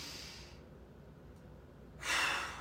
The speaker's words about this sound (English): Big breath in. We're going to go three big breaths. Two. And one more.